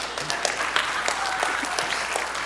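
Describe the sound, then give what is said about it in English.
Applause from an audience gathered in an auditorium for a morning talk: many overlapping hand claps form a steady, fairly even wash of clapping, with a few sharper claps standing out. “five hand claps”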